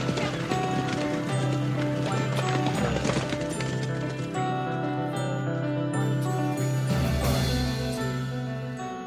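Hoofbeats of a champion racehorse filly from the 1970s galloping, a steady, continuous drumming of hooves that stays loud throughout, accompanied by sustained musical tones.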